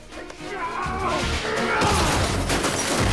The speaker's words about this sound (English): A man hauls Travis into a store, then throws him into some shelves.